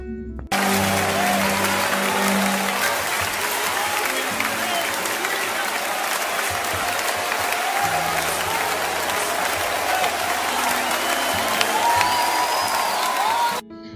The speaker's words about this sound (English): Let us make some noise for Pastor Adeola before he introduces himself.